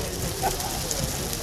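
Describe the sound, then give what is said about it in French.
Brik pastry filled with tuna, egg, onion and parsley frying in hot oil at a popular restaurant gives a steady crackling sizzle. The hiss holds evenly for the whole moment, with voices faintly present. “Vous l'avez jeté dans l'huile, hein?”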